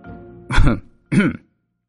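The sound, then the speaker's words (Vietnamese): Two short, rough coughs come from a person seated across from someone, separated by a brief silence. Both are fairly loud and isolated, with no talk around them. “ngồi đối diện, ho lên vài cái.”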